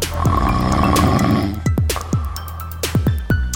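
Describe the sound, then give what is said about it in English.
A woman snores loudly, first with a long rasping breath, then with a run of short, throaty snorts and sputters in an uneven rhythm. “And that's Mom snoring.”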